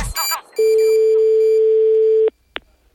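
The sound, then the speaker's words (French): Telephone hang-up tones: a steady, moderately loud tone holds for under two seconds after a burst of noise, then cuts off and is followed by one short click-like blip. “Donc je pense qu'il faut aussi faire gaffe avec le raccrochage téléphonique.”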